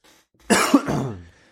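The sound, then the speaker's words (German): Coughing from someone who has just choked on something: a short, throaty fit that breaks out sharply, peaks in a harsher second cough, then trails off over about a second. “Entschuldigung, ich habe mich gerade verschluckt.”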